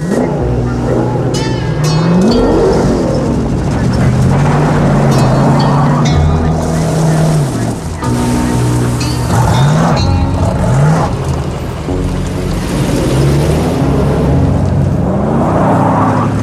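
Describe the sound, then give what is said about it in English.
A car engine revs and accelerates as the vehicle drives away from a crime scene, its tone gliding up and down repeatedly across the sixteen seconds amid a loud, busy mix. “As Tony looks at it, Truman is already driving away from the crime scene.”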